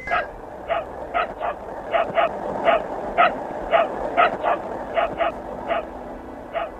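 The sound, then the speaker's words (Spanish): Dog barking from inside the Sputnik 2 spacecraft: many short, high yips and barks, some in quick pairs, at a moderate level over a steady hiss. “Es Laika ladrando desde algún lugar dentro del Sputnik 2.”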